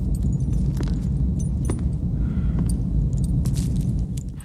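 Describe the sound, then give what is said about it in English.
Metal chains rattle and clank as a prisoner wrenches them in fury. A few sharp jangles cut over a steady low rumble, with no voices. “wrenches his chains in fury”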